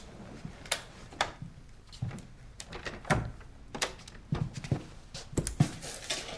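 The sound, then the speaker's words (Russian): A lock is carefully opened in a string of faint, dry clicks and small metallic taps at uneven intervals, quiet and unhurried, with no voices. “Жаклин аккуратно открывает замок.”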